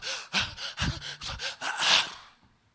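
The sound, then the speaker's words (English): A voice imitates the labored gasping breath of a dying person: several rasping, breathy gasps in a row that build to a longer, louder final gasp before fading away. “If you've seen people die, the gasp of breath is, please, I want some water.”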